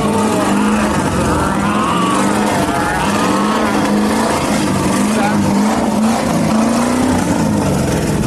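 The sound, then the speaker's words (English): V8 engine revving loudly in a continuous rumbling drone whose pitch wavers up and down as the throttle is worked, with voices talking over it. “Now that's what I call V8 pleasure.”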